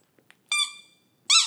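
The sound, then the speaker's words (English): Two loud, high-pitched, tonal squeaks separated by a short pause, with a few faint clicks just before the first one. “Squeak once for yes, two for no.”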